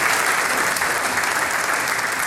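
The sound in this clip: Audience applause for a town mayor after an interview at a folk music event in St. Peter-Freienstein, Styria: dense, steady clapping that is loud and unbroken throughout, without voices.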